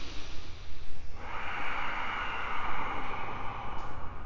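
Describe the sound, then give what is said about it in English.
Breathing in and out through the nose during a yoga class makes a continuous airy hiss that grows brighter and fuller after the first second and carries on steadily to the end. No one speaks. “Breathe in and out through your nose.”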